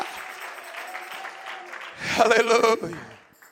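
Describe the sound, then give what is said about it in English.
A church audience claps their hands together in a short, loud burst of claps mixed with voices, after a quieter stretch of steady talk and background sound. “Come on, clap your hands to the Lord together.”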